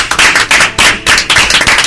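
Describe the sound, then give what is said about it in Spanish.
Hands clapping loudly in a tribute, a few people applauding together in a fast, steady patter of sharp claps with no talk over it. “vamos a dar un aplauso desde aquí”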